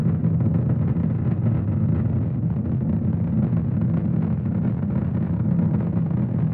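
Steady, dense roar of a rocket's Merlin 1D engines as the booster pitches downrange on a launch to a metal asteroid, a continuous deep rumble with no breaks or pauses.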